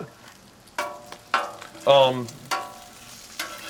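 Bacon frying in a pan, a faint steady sizzle broken by a few sharper crackling bursts, one louder and brighter than the rest, with no talk over it.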